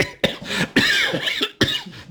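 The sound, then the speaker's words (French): Three harsh coughs from a person in a cold cellar. Each is a sharp, loud burst with a rough, breathy tail, spaced unevenly over about two seconds with no talk in between. “c'est froid dans la cave, ça fait tousser.”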